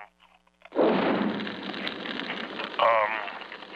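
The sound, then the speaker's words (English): Fire flaring up as drapes catch alight, a sudden loud whoosh that settles into a sustained, noisy roar and crackle until the end. “Now the drapes are on fire.”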